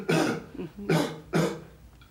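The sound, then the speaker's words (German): Three loud, harsh coughs from one person, evenly spaced about half a second apart, with no talking. “einatmen. Und husten.”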